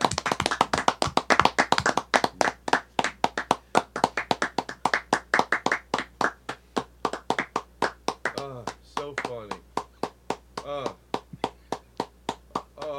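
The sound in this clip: Two people clap their hands after a show, each trying to be the last to stop, producing many sharp, evenly paced claps that go on for about thirteen seconds, with voices talking over the later ones.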